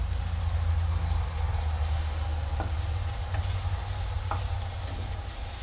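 A burger fries in a pan on low heat, giving a soft, steady sizzle throughout with a few faint clicks and pops.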